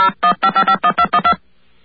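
Telephone keypad dialing tones play as nine quick, loud electronic beeps in a brisk, even rhythm, followed by a short silence.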